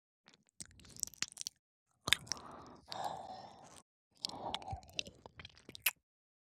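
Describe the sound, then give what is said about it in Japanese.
Wet, close licking and slurping mouth sounds on an ear moistened with alcohol, in three main bursts of smacking and soft suction separated by brief quiet pauses. “ここにもお酒がついていますよ。しっかり舐めとりますから。”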